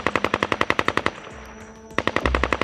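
Machine gun fire in a video game: a long, rapid, evenly spaced burst of many loud shots, a short pause, then another burst of fire.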